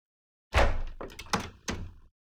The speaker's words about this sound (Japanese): 扉開けてくれるんですね。お願いします。